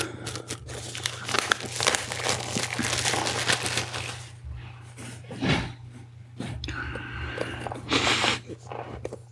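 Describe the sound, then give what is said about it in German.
Crinkling and tearing of the typical plastic foil peeled off an Apple product box, several dense bursts of crackle with short pauses between them. “Wir machen die Apple-typische Folie ab.”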